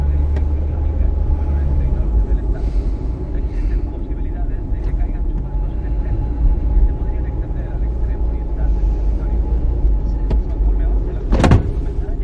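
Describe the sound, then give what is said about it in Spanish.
A car drives along a road with a drowsy driver at the wheel and a cyclist ahead, a steady low engine rumble broken near the end by one brief, sharp sound. “Mal conduce somnoliento. Un ciclista va delante del coche.”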